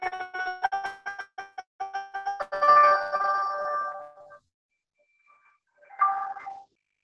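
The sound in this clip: Electronic ringtone of an incoming phone call, a quick run of repeated bright beeps, then a longer held tone, a brief silence and one short final chime.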